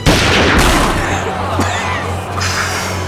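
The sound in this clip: Gunshots from a gun in a Batman audio drama: a few sharp, loud bangs burst out of a dense, continuous sound bed with a steady low hum underneath.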